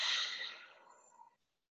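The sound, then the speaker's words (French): A soft exhale out through the nose during a guided breathing exercise, one breathy rush that fades away and stops. “Inspirez. Expirez par le nez.”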